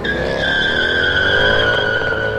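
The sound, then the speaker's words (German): Tires squeal as a black Mercedes car speeds off, a loud, sustained high-pitched screech that holds steadily for the whole stretch over a low engine rumble. “Der ist jetzt mit einem Auto abgehauen. Ja, ein schwarzer Mercedes. Konnte ich gerade noch sehen.”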